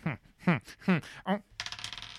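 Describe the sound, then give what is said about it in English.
Dice rattle briefly in a quick burst of rapid, fine clicks at the end, following four separate tonal bursts. “he cannot do anything without rolling a bloody dice”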